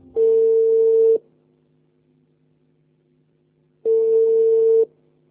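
A telephone call being placed rings out as two long, steady ringback tones, each about a second, separated by a pause of almost three seconds, with nothing else heard.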